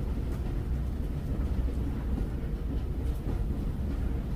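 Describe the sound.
A train rolls along its rails with a continuous deep rumble and a dense low clatter that stays even in level throughout, with no voices.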